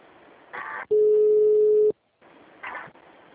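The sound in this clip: A telephone ring tone sounds once as a call is transferred: a single steady, even-pitched tone lasting about a second, with brief faint sounds before and after.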